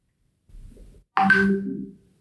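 A WhatsApp ringtone sounds on a phone as a single bright electronic tone with rich overtones, lasting under a second and then fading out.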